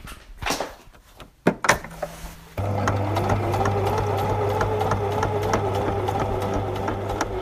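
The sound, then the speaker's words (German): Sewing machine stitching a small jeans pocket onto a jute bag: a few hard clacks and knocks come first, then the motor settles into a steady, continuous whirring drone to the end. “Jetzt nähe ich das kleine Fach vorne fest.”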